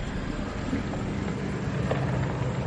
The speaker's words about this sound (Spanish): Llega un todoterreno que para cerca de la casa.